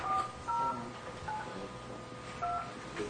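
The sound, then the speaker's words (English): Telephone keypad tones dial an account code into an automated phone system: several short, clear electronic beeps in an uneven sequence over a steady low hiss, with no talk. “The account code you have dialed is not valid.”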